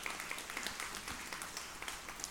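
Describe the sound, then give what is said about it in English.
Applause from a church audience welcoming upcoming baptisms: many hands clapping in a steady, dense patter throughout, fairly faint. “So if you don't, you can applaud for that. Somebody start clapping.”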